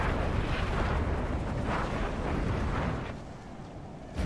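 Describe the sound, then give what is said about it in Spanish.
Fiery roaring whoosh from a fire serpent ability cast in a video game, a dense, sustained rushing roar that eases and thins near the end before a short burst returns at the close. “lanza una serpiente de fuego. Y la habilidad, ahora la veréis, es una serpiente de fuego.”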